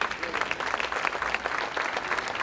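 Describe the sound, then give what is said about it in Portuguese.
Audience applause at a fado concert celebrating a cultural association's fifth anniversary: dense, continuous clapping that holds at an even level throughout, with no clear break. “Quero, para já, um aplauso para, na guitarra, na primeira guitarra do lado de lá, está o João Araújo.”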